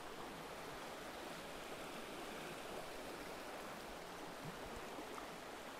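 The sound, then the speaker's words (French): A river current swirls and rushes past rocks in an even, faint wash of water noise that holds steady without breaks. “J'observe le courant de l'eau, les tourbillons.”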